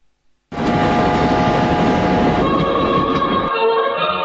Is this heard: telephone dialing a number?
no